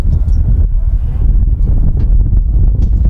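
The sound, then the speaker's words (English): Strong wind at a baseball field buffets the microphone in a continuous low, rumbling roar that surges and eases without pause, loud and alone. “Wind today has been unrelenting.”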